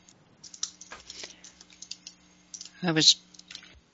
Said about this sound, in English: I was just writing in the chat there.